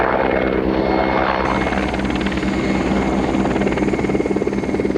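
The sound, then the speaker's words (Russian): A helicopter flying: loud, continuous rotor chop with a rapid, even pulsing beat over a deep engine drone, steady throughout with no other sounds. “Летит вертолет.”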